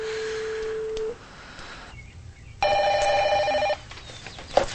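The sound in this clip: A telephone rings in a house. A steady tone comes first, then after a short quiet gap a single bright, buzzy ring burst lasts about a second before the line falls quiet again.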